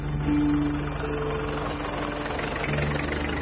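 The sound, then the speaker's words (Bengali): Truck engines run as several trucks bound for a market arrive. A steady, dense low rumble with a faint droning hum holds at an even loudness throughout. “Havana মার্কেটে যাওয়ার ট্রাকগুলো এলো বোধহয়।”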